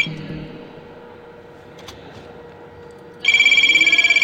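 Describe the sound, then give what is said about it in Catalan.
During a radio show a telephone rings: after a few seconds of quiet background, a loud, rapidly pulsing high electronic trill starts abruptly and continues to the end. “aquí sembla que ens truquen.”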